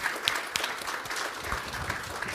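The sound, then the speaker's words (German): Applause from an audience at a service, a soft, steady wash of many hands clapping with a few sharper claps poking through, fairly faint and even from start to finish. “But you can clap for Shaoxi. Aber okay. Wir dürfen für Shaoxi klatschen.”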